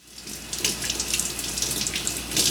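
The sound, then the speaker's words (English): Tap water runs steadily into a sink while vegetables are washed for a hot pot dinner, a soft, even splashing hiss with no voices. “We need to wash a lot of vegetables.”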